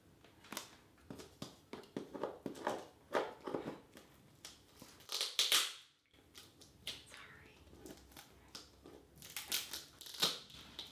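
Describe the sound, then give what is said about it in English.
Crinkly snips and crackles as plastic packaging is cut open while unboxing a Blue Yeti microphone: many quick, sharp bursts in an uneven rhythm, with a brief pause midway. “I'm just going to cut the plastic first.”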